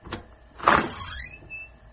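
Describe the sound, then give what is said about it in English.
A door on the right opens inside a small house-style museum. A faint click is followed by a louder rasping swing and then a thin, rising squeak that fades out, with no voices. “Open the door on your right.”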